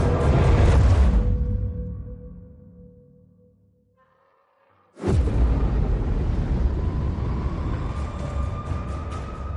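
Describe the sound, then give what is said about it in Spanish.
An asteroid impact explosion sound effect for a documentary about a collision with Earth: a heavy roaring rumble fades to near silence, then a sudden loud blast erupts into a sustained, dense roar. “Júpiter lo expulsa de su órbita y adopta un rumbo que lo llevará a colisionar con la Tierra.”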